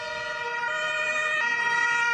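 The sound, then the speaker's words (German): Ambulance sirens as rescue vehicles arrive, a loud, bright, steady tone with rich harmonics sounding continuously throughout. “Die ersten Rettungswagen treffen ein, 10 Minuten nach der Landung.”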